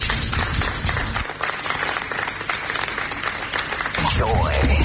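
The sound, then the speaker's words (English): Audience applause after a speech by a Bank of Ghana fintech and innovation head at a fintech programme event, a steady wash of clapping with a voice rising over it near the end. “Please, a round of applause for him once again.”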